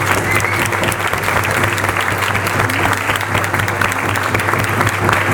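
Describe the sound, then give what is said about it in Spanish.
Applause at a world assembly for the African continent, a steady, dense patter of many hands clapping throughout, over a constant low hum. “Aplausos, continente africano, en esta quinta Asamblea Mundial.”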